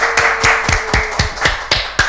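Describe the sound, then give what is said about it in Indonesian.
Rhythmic audience clapping at a stage performance event: eight sharp, evenly spaced claps at a brisk, steady beat over about two seconds, with a faint steady tone underneath. “Oke, beri tepuk tangan yang meriah dong.”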